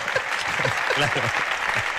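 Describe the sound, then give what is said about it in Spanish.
Audience applause during a live discussion in Alicante about rice and paella: a dense, steady burst of clapping that runs the whole moment while people keep talking over it. “Te han aplaudido porque el arroz es mejor que la paella, ¿no?”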